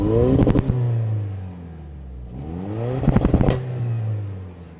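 Truck engine revving to about 4,000 RPM, rising and falling twice in two loud, rough bursts with a steady idle between them.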